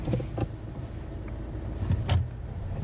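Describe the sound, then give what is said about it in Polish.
A car drives along narrow, winding serpentine mountain roads with rock walls close by, giving a steady low engine and road rumble with a few brief louder swells and no voices. “Jedziemy wąskimi serpentynami.”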